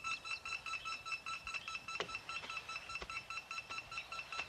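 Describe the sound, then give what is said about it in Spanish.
Telephone tones in quick succession: many short, faint beeping pulses in a steady rhythm, with a few sharper clicks among them. “El teléfono.”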